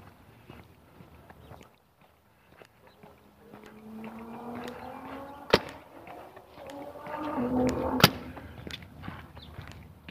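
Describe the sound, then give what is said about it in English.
Paintball guns being test-fired nearby give a few sharp, isolated putts spaced well apart, over a faint droning hum that swells in the middle. “Those putts were their paint guns. I guess they were testing them.”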